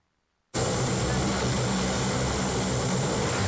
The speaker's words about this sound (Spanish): Así partieron desde Guayaquil en este avión tipo Hércules de la Fuerza Aérea Ecuatoriana